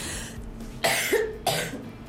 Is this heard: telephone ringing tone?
no